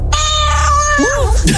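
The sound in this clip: A cat's long, drawn-out meow: a steady tonal cry lasting about a second that then bends up and down in pitch, loud and continuous throughout.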